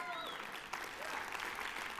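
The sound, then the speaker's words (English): A church audience applauds during a sermon. The clapping is steady and dense throughout, with cheering voices mixed in. “Let me tell you something. This is worth applauding.”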